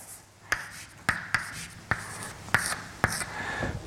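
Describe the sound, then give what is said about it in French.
Writing during a lecture on the Van der Waals equation: faint, scratchy strokes broken by about six sharp taps at irregular intervals, with no talk. “Donc, je vais écrire que V moins”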